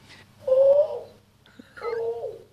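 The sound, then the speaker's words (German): A cuckoo calls twice in two distinct mid-pitched notes with a pause between them, clear over a low background hum. “Der Kuckuck sagt ja, das ist wahr, was ich sage.”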